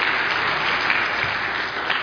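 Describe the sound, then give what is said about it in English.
Audience applause at a church service, thanking young helpers: dense, steady clapping from many hands that stays loud and even for the whole stretch, with no voices over it. “Would you give them a round of applause for helping me?”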